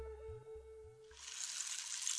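Water being poured inside a clay sweat lodge, a rushing, hissing pour that starts about midway and continues steadily to the end, following a sustained low humming passage.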